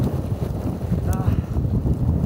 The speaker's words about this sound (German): Hier weht einfach alles weg, man kann kein Zelt aufbauen.